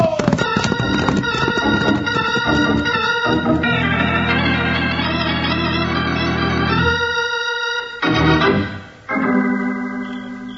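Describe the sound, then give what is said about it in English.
Horses galloping hard as riders race back to town, the hoofbeats blended under loud, sustained music that drops out briefly near the end. “Back to town by the shortest route we can find, and we've got to ride hard to beat those jaspers back to Angel's Fork.”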